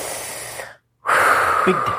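Deep breaths taken in preparation: a long, loud, noisy breath, a short silence, then another strong rushing breath.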